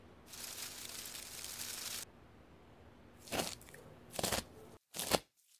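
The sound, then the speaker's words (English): A knife chopping dark grayish-green shadow fern stalks: a faint, sustained rustling scrape followed by three separate crisp, crunchy cuts, quiet and without talk. “Can you chop up those shadow fern stalks for me? They're the dark grayish green ferns in the basket.”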